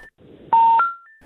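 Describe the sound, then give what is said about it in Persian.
Telephone tones as a phone call with a guest drops: a brief beep, then a loud sustained electronic tone that steps to a different pitch and fades, followed by a softer tone. “خب تماس ما با دکتر صاحب پویا بازم قطع شد.”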